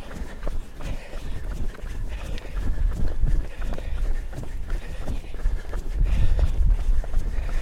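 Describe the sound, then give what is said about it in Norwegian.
Running footsteps of a man jogging away, many quick, even footfalls thudding at a steady pace throughout. “Nå springer han fra deg.”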